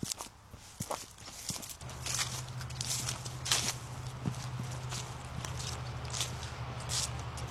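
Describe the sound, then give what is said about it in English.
Footsteps walking through Namipu homelands in fall: many crunching, uneven steps that continue throughout at moderate loudness, with a steady low hum joining partway through. “takes us on a walk through Namipu homelands to observe the changing season.”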